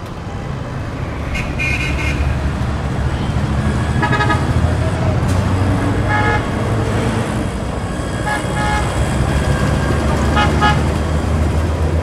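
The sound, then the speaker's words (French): Car horns toot again and again through dense evening street traffic in Delhi, India. Short honks come from many vehicles over a constant loud roar of engines and road noise. “Conduire sans klaxonner en Inde, c'est inimaginable. Quand vous prenez un taxi, la première chose qu'il fait, c'est appuyer sur le klaxon avant même de mettre le moteur en marche”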